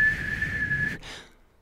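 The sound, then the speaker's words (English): A whistling tea kettle lets out a steady, shrill, high tone for about a second, then cuts off abruptly into a short fading hiss. “That's why we have tea kettles with little lids with little holes in it that whistle.”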